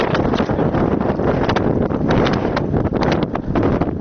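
Desert wind gusts buffet the microphone during a road-clearing military operation in Helmand, making a steady roaring rush of noise that carries on without a break and with no voices.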